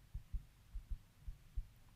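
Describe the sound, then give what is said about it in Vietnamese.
Muffled, low heartbeat thumps sound alone and faintly: six beats in three lub-dub pairs over two seconds, steady and pounding. “Tim tôi đập thật mạnh.”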